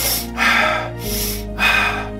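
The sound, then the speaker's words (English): Rapid, deep breaths are demonstrated, the rhythmic breathing cycle alternating louder and softer rushes of air in quick succession over a faint low hum, with no talking. “The repetitive breathing more quickly and deeply, this kind of thing,”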